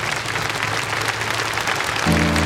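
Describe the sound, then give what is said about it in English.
Congregation clapping as a clap offering during a church service: dense, continuous applause, with held instrumental notes entering just before the end. “Would you thank the Lord with another clap offering?”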